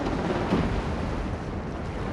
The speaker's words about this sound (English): Then the wave hit it. Abby felt the lighthouse shake.